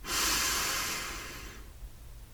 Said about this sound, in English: Once more, inhale to tense.